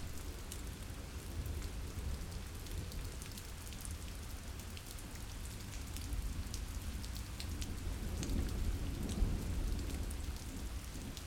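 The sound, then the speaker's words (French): Rain falling: a faint, steady, dense hiss of countless drops that stays even throughout, with no voices. “J'écoute le bruit de la pluie”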